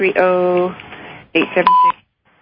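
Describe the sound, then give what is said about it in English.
A single short electronic beep on a phone-in radio show: a brief, steady, pure mid-pitched tone that follows a stretch of speech and ends abruptly. “I got them all in before the beep”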